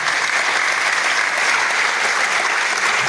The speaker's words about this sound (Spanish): Les pido un aplauso para estas personas